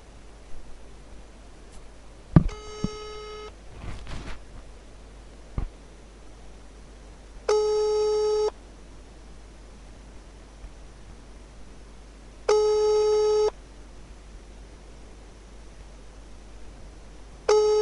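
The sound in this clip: Telephone ringback tone plays while a call to a friend is dialled. A few brief beeps and clicks come first. Then steady, buzzy one-second tones repeat about every five seconds, three in all, over a faint hiss.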